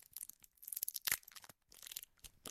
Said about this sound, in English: Oh, opening a candy.